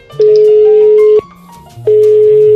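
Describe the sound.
Telephone tone while placing a call to Kyrgyzstan: a loud, steady mid-pitched beep lasting about a second, a short gap, then a second long beep of the same pitch.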